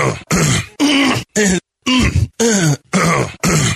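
Repeated throat clearing, eight gruff, voiced bursts in a steady series separated by brief pauses, each loud and rough with a low rasp.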